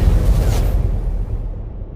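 An explosion sound effect: a deep, loud boom whose low rumble slowly fades out over about two seconds, with no voices.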